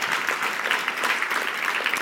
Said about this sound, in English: Yes, give yourselves a hand. Way to go.